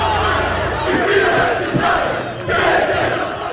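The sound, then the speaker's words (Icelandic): Roar of a large crowd of protesters in Tirana, Albania, demonstrating against a planned luxury resort on a protected area: dense shouting and cheering voices, continuous, swelling louder after about a second and again in the final second. “Þúsundir mótmælenda komu saman í Tirana, höfuðborg Albaníu, þriðja daginn í röð í gær.”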